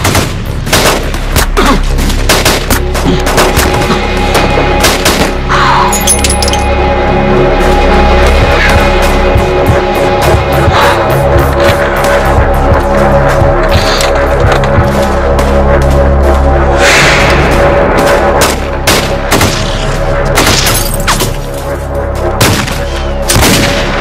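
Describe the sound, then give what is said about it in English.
Loud, sustained gunfire from the North Hollywood shootout, with many rapid shots packed into dense bursts and overlapping volleys. Sharp cracks run through the whole stretch without any pause. “Absolute war zone down there. The firing continues.”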